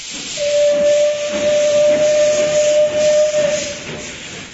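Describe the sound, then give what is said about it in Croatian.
A steam train sounds its whistle as it departs: one long, steady, piercing tone held for about three seconds over a bed of loud hissing steam, which lingers after the whistle stops. “Oh, ode mi voz. Šta ću sad?”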